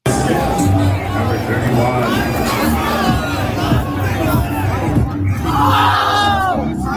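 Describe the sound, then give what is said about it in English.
A crowd at a baseball game screams and cheers for a little girl, a loud continuous roar of many voices with shouts and whoops that never drops away. “And just watch this little girl has the entire crowd screaming for her. It's awesome.”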